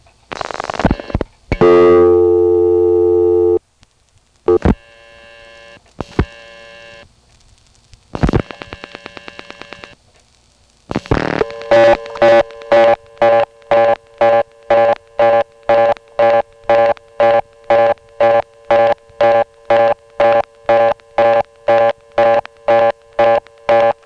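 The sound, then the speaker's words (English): Telephone line tones sound while dialing into a callback circuit: short bursts of tones and clicks separated by silent gaps, then a long run of evenly spaced, buzzy beeps repeating at a steady rhythm. “Here's another example of the same thing. Notice how when I dial the third digit 9, which goes into the callback circuit,”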